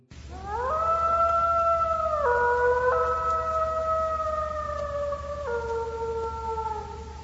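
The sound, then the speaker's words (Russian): An animal howls in one long, loud, sustained cry of about seven seconds. It swells up at the start, then holds steady with a few abrupt step-downs in pitch, with no other sounds around it. “И тут Самир услышал вой.”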